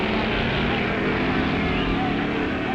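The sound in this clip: Engine roar from a gasser-class drag racing boat tearing past, a loud, dense and steady roar that fills the whole stretch without a break.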